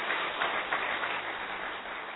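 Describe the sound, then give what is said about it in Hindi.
Loud, dense clapping from an audience at a spiritual gathering with meditation, applauding on request; a steady, continuous wash of many hands with no pauses. “चलिए ताली बजाइए जोर से, बहुत अच्छा।”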